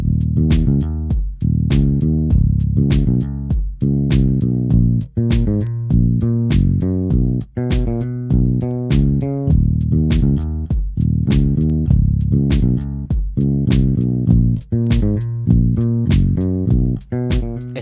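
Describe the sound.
A song's groove, built from an elaborate bass line and electronic drums. Deep, punchy bass notes lock with a steady, loud beat of sharp drum hits, repeating in a tight rhythm with no voices.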